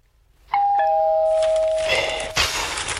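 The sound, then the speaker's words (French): A doorbell rings with a loud two-tone ding-dong, a higher chime followed by a lower one that holds and fades slowly. Rustling and a dull knock follow underneath. “on a sonné.”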